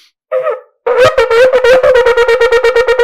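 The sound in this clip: A shofar blows shevarim running straight into teruah in one breath, following the Chazon Ish view: a short loud blast, a brief gap, then a sustained horn tone broken into many rapid staccato pulses with no pause between them.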